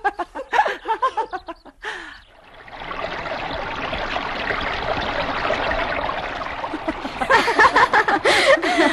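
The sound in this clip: River water flowing as a radio drama sound effect, a steady rushing trickle filling the middle, with women laughing and talking before and after it.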